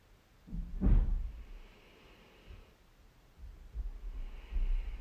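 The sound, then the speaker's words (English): A slow, deep breath in and out during a guided meditation: a breathy rush of air early on, then quieter, drawn-out airflow with a softer breathy swell toward the end. “So, taking a slightly deeper breath.”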